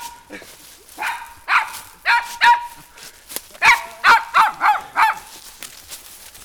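A stray dog barks in a run of many loud, sharp barks. They come in uneven bursts with short pauses, then a quicker cluster of barks follows.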